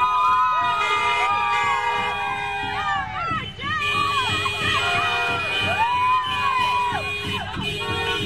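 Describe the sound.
An audience at a speech cheers loudly, with a continuous roar of voices cut through by whistles and high shouts that rise and fall throughout.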